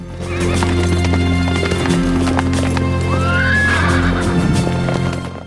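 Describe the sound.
Horses carrying riders over rocky, dusty terrain: steady, loud hoof clip-clop throughout, with a horse whinnying once midway.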